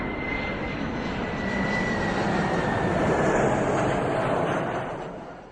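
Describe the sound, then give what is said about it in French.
An airplane flies overhead with a steady, broad engine drone and a faint high whine, swelling slightly and then fading away near the end. “Attends, regarde! Un avion!”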